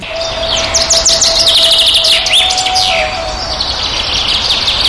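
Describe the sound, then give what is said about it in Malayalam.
A black-hooded oriole sings a quick run of repeated high, sweeping chirps over a steady low hum, the notes bunched early and then returning more loosely. “മഞ്ഞക്കറുപ്പൻ പലതരത്തിൽ പാടാറുണ്ട്. മഴക്കാലം തുടങ്ങുന്നതിന് തൊട്ട് മുമ്പ് മുതൽ അവ പാടി തുടങ്ങുന്ന പാട്ടാണ് കൂടുതൽ പേരും കേട്ടിരിക്കുക.”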